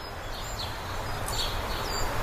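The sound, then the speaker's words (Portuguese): Birds and sea in the background of a song: a few brief, high bird chirps over a continuous wash of sea noise. “com pássaros e mar ao fundo.”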